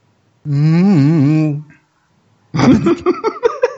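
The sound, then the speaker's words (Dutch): A person imitates Chewbacca's roar from Star Wars with a single long, warbling growl. The voiced, wavering tone lasts about a second and is followed after a pause by talk. “That's the worst Chewbacca ever.”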